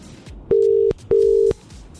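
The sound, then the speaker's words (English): Telephone keypad dialing tones: two steady, identical beeps of about 0.4 seconds each, separated by a brief gap, with quiet background between them. “Let me dial. Was it 1, 2, 3?”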